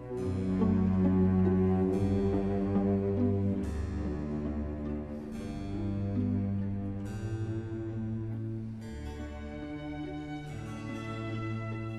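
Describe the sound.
Pachelbel's piece in a slow, lush 1960s chamber-orchestra rendition: sustained strings layered over a deep bass line that steps to a new note every couple of seconds, steady and unhurried with no talk.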